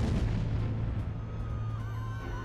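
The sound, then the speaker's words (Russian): A rebel bomb explodes at the bottom of a well, heard as a deep, sustained roaring rumble that rolls on without a clear break and slowly thins out, with faint crackling above the low boom. “Пара секунд. И бабах.”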